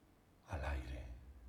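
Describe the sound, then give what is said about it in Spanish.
A single soft breath, a short airy sigh-like exhale that rises suddenly out of near silence and then slowly fades. “Respiración.”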